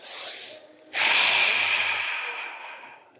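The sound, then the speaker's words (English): A group of people take a big breath together: a softer breathy rush, then a louder, sustained rushing breath that holds for about two seconds and slowly fades. “let's all take a big breath with them”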